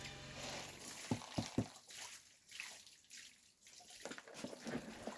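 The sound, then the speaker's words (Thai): Water sloshes and trickles as coffee cherries are washed, keeping only those that sink. A few sharp knocks come early on over steady, quiet splashing, with no talk. “ตอนนี้เราอยู่ในกระบวนการล้างกาแฟนะครับเราเอาเฉพาะลูกที่จมแล้วก็ใบสีนะครับ”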